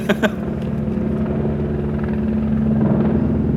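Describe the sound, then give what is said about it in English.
Helicopters fly overhead, their rotors making a loud, continuous rhythmic thudding over a deep engine rumble that holds steady throughout, with a couple of sharp clicks right at the start. “Man, the copters are coming for us again.”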